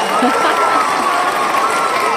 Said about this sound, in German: Ich dachte, ein bisschen Applaus braucht's nochmal.